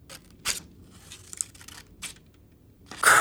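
Scissors cut out a paper spinner in a few short, crisp snips and papery rustles separated by quiet gaps, with a louder, longer crinkling burst at the end.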